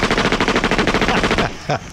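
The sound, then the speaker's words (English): Rapid burst of gunfire, many sharp shots in an even, fast rhythm, loud, then ending abruptly with one last short crack after a brief gap. “took his central processing unit outside and shot it 8 times with a pistol.”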